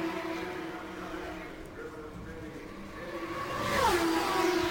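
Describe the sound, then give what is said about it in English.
Race car engines lapping the track at the Indianapolis 500 give a faint, steady high whine with strong harmonics. Near the end it grows louder and the pitch drops sharply as a car goes by. “it is Roberto Guerrero that continues to circulate the track and lead the Indianapolis 500. He comes off of turn four, completes another lap, and Davey Jones stays out.”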